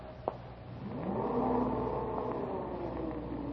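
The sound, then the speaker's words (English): Elevator arriving, heard as a mechanical whir over a steady low hum, with one short click near the start and a whining tone that rises and holds. “Elevator! Wait a minute, will you please?”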